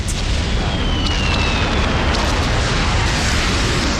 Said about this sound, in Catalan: Sense temps per trobar un lloc on amagar-se, una bomba cau al costat de la nostra amiga.